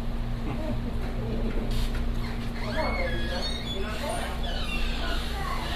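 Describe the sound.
A dog whimpers in thin, high squeaks and short yips, faint over a steady low hum and background hiss.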